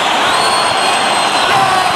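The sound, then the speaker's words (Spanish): Bullring crowd cheering and clamoring loudly to demand the bull's tail for matador El Fandi after two ears were already awarded. The noise is a dense, continuous roar with no pauses. “El público pide el rabo para el Fandi.”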